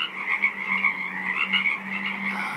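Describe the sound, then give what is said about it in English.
A dense chorus of frogs croaking in a small wetland on Saturna Island, British Columbia, many overlapping calls merging into a steady, pulsing din that carries on without a break. “a 24-hour broadcast of the sounds of a small wetland on Saturna Island, British Columbia”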